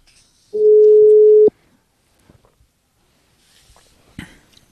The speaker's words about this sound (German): Okay. Dann rufen wir ihn jetzt mal.